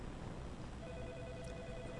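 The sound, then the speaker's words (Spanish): A telephone rings with an incoming call, a steady electronic tone starting partway through and running to the end, faint beneath a hissing background. “Tenemos una llamada.”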